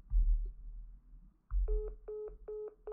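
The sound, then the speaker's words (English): Telephone dialing tones as a caller redials a dropped call: a few short, steady electronic beeps in quick succession, following a stretch of low rumbling noise. “I have to try to dial Bob up again.”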